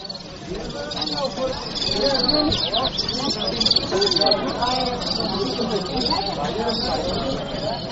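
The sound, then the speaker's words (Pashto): Call of the golsar, a white-collared mountain songbird: rapid, high, twittering chirps repeated in bright bursts, with a voice also heard alongside. “فرید خان د کاپیسا د نجراب ولسوالۍ اوسیدونکی هم د ګلسرانو شوقی دی. ومان مرکه ورسره کړې ده چې د ګلسر په غږ سره پیلیږي.”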